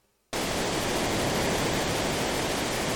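River rapids rush in a video game raft scene as a dense, steady roar of water. It bursts in abruptly after a brief near-silence and continues loud and unbroken to the end.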